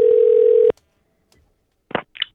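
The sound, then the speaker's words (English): A telephone line tone sounds as a caller joins the line: a loud, steady mid-pitched hum lasting under a second that cuts off abruptly, followed after a pause by two short, separate bursts of line noise. “Sorry for the interruption, guys. Uh, we actually have a caller joining us on the line”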